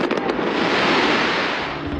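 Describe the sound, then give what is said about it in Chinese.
A New Year fireworks display bursts over the Thames in London, launched from a giant Ferris wheel. A few sharp cracks open into a dense, continuous crackling and popping that stays loud throughout. “新年焰火表演在泰晤士河畔举行。随着大本钟的敲响，璀璨的焰火从伦敦眼摩天轮上升起。”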